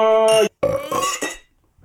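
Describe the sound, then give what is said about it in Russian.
A loud, long burp with a buzzy, voiced tone breaks off briefly, then resumes in a few rougher bursts before trailing into silence. “обратите внимание, ты рыгнул”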